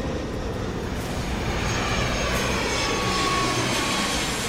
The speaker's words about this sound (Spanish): El avión despega y 1 hora después ya está de regreso.